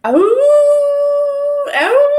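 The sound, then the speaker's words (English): People howl in imitation of wolves or dogs in a cul-de-sac: a loud voiced howl swoops up and holds a long steady tone, then a second howl starts and rises again. “just started howling.”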